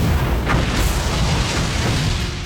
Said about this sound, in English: the trailer starts with a rocket taking off into space